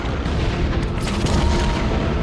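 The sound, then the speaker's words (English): Weapons fire at starships as a dense, continuous barrage of deep booms and blasts. The sound stays loud and roaring throughout, with no clear gaps and no voices. “Shots are fired at starships.”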